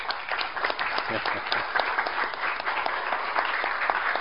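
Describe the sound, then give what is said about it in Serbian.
Applause for a man being thanked: many hands clapping in a dense, even patter that holds steady throughout, with a few voices faintly beneath. “ovo sve njemu, ovaj aplauz njemu, molit ću lepo.”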